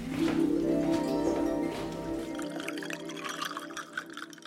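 Water poured into a glass, a continuous liquid splash with ringing tones that runs for a few seconds and softens toward the end, with no talk over it.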